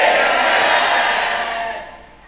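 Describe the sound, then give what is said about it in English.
A church audience shouts a loud amen together, a broad, sustained roar of many voices that gradually fades away toward the end. “I say you are singing a totally new song. Let me hear your loudest amen. Let me hear a 2017 amen.”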